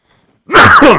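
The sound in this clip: A single loud, voiced sneeze bursts out abruptly after a moment of silence and ends quickly.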